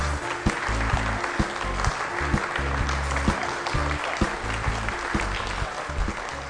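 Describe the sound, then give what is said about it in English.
Applause from a live audience at a downtown Jackson event: steady, dense clapping that runs throughout, with scattered louder claps, over a low, rhythmic bass line. “Large crowd mulling around here at the WAX.”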